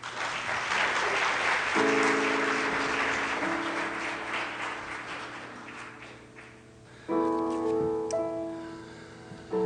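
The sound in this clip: An audience applauds to welcome a speaker, with steady dense clapping for about seven seconds over sustained instrumental tones. As the clapping fades, a brighter musical chord enters.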